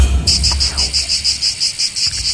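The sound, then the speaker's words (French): Cicadas chirping, the insect sound typical of the seaside in southern France: a loud, high, buzzing trill pulsing in a quick, even rhythm, with a low rumble briefly underneath at the start. “Bah oui, c'est les cigales.”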